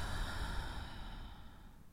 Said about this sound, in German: Und nun darfst du deine Augen schließen und einmal ganz tief durch die Nase einatmen und durch den Mund wieder aus.